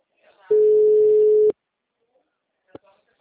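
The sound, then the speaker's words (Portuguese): A single steady electronic tone sounds on a phone line after the call drops. It holds at a mid pitch for about a second, then stops with a click, followed by a couple of faint soft noises. “Oi, a ligação caiu.”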